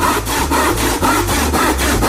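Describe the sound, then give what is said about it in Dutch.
Rapid back-and-forth sawing of wood as a piece is cut off a chair, about eight quick, even strokes in two seconds, loud and alone. “Ja, ze zagen even een stuk van zijn stoel af. Een stuk van zijn stoel of van de vleugel misschien, hè?”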